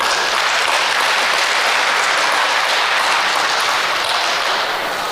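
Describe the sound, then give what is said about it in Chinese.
A sustained round of audience applause at a comic performance: thick, even clapping from many hands that holds a steady, fairly loud level for the whole stretch and eases off only slightly at the end. “听明白这阵掌声了吗？ 这不召唤吗？”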